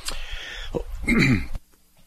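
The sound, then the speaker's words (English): A cough with throat clearing: a few rough, sharp bursts followed by a longer, strained voiced rasp, then a sudden drop to near silence. “Sorry about that, I just had a cough.”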